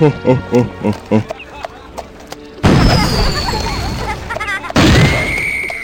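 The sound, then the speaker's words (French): Fireworks rockets go off in two loud, sudden bursts, each trailed by a high whistling tone, after a run of rhythmic tonal pulses. “Glandal, Glandal, les fusées d'artifice, Glandal, les fusées de feu, Glandal.”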